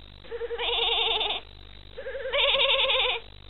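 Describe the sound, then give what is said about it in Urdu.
A goat bleats twice, each call a long, loud, wavering cry with a trembling vibrato, separated by a short pause and heard on its own. “بکری بولی،”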